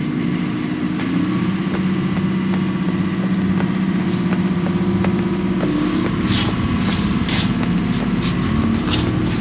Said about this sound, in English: straight in front of me there's a great big diesel generator